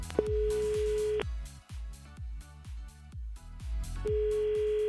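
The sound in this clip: Ringback tone on a telephone line as a call is placed: two long, steady, mid-pitched tone pulses separated by a gap, sounding over a thumping rhythmic beat.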